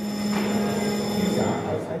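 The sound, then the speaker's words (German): An electric bell rings steadily to summon members of parliament to a vote during a parliamentary inquiry committee session; a continuous, even, metallic tone holds for about two seconds over a low murmur of voices. “Eine Klingel ruft die Abgeordneten zur Abstimmung.”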